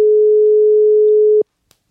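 A telephone call tone while dialing: one steady, unbroken mid-pitched beep lasting about a second and a half, then it cuts off abruptly, followed by a couple of tiny faint clicks.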